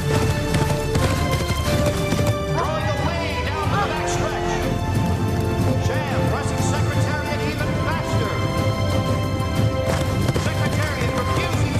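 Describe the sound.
Hoofbeats of the racehorse Secretariat galloping around the first turn of a race, rapid pounding under loud orchestral music and talk.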